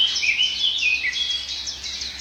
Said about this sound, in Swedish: Och grönsångarna är väldigt påtagliga här nu. Bofinken har ju fått igång. Man hör lite mesar.